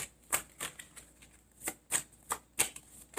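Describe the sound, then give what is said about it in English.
Tarot cards being drawn from a deck make several crisp, papery snaps and flicks, spaced irregularly and heard alone without talk. “I think I'm going to take another card too. May I have another card,”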